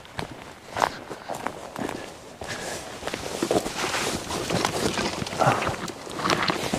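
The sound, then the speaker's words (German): Footsteps of a person walking back a short way, many steps in an irregular rhythm, with some louder, sharper footfalls among the softer ones. “Ich gehe wieder ein Stück zurück.”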